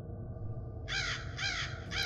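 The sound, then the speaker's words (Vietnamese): Crows caw mournfully outside in three harsh, rasping calls in quick succession, the last cut short, over a low, steady rumble with no voices. “bên ngoài chẳng hiểu từ đâu những tiếng quạ cứ thấy vang lên, nghe có phần thảm thiết”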